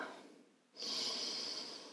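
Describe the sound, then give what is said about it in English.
A deep inhale through the nose during a guided breathing exercise: after a brief quieter moment, a steady, airy rush of breath begins and holds for over a second. “I want you to take a deep inhale through the nose.”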